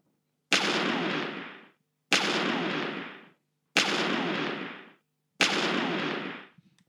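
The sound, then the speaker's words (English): A gun salute sound effect: four loud booming shots, evenly spaced about a second and a half apart, each cutting off sharply after a long rumbling decay, with silence between them. “That's my little gun salute for some Stanley. It's 7 shots, though.”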